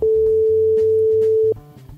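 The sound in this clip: A tone from an international phone call, a loud, steady single-pitched beep held for about one and a half seconds before cutting off. Quieter low tones sit underneath.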